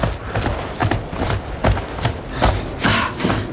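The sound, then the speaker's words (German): Horses walk into a stable, their hooves clip-clopping in many uneven thuds at a steady walking pace, with no voices. “Bringen wir die Pferde in den Stall.”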